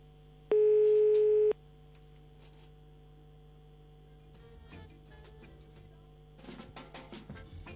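A telephone line tone sounds while a call is dialed, a single loud, steady electronic tone lasting about a second, followed by a low hum and then a patch of faint clicks and rattles.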